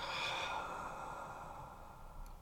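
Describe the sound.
A held breath let out during a guided breathing and pelvic floor exercise: one long, soft, airy exhale that slowly fades, faint and alone.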